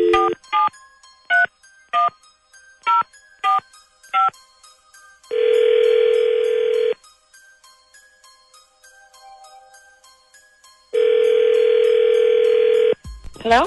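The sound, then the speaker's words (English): Telephone keypad tones beep as a number is dialed at random: seven short beeps in an uneven rhythm, followed by two long, steady tones with a quiet pause between them. “Dialing at random.”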